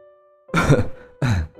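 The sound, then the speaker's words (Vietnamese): A woman coughs twice on a cold, rainy night, a rough, throaty burst followed by a shorter second one after a brief pause, over a faint steady tone. “miệng liên tục ho lên không ngớt”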